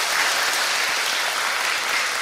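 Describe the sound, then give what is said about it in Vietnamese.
Audience applause at a Buddhist dharma talk, a brief, dense, even burst of many hands clapping that stays steady throughout. “10 điểm trong một tràng pháo tay.”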